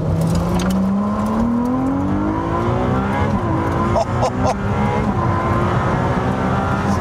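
Engine of a Ferrari 296 Speciale hybrid sports car, its note climbing steadily in pitch over the first few seconds, then settling into a loud, dense, continuous rumble.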